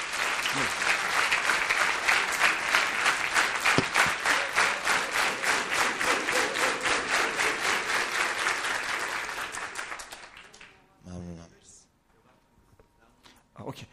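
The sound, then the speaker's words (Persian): An audience breaks into loud, sustained applause during a talk, many hands clapping in a dense rhythmic patter for about ten seconds before it fades, followed by a brief spoken voice. “تشویقش کنید”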